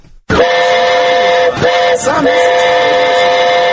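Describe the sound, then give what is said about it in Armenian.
Shrill, steady whistling from a 25-seat children's amusement train in a town square. It is loud and almost continuous, with two brief dips before the tone resumes. “Հանրապետության հրապարակում 6 այսպիսի մանկական գնացքներն աշխատում են հունվարի 5-ից առավոտյան 9-ից մինչև կեսգիշեր։”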